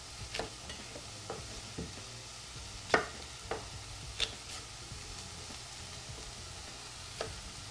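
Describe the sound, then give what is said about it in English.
Food sautés with a faint, soft sizzle while a green apple is chopped and seeded, scattered sharp knife knocks standing out above the quiet frying. “After I add that, I'm going to cut up this apple, let that saute a little bit. Just want to chop it and remove the seeds.”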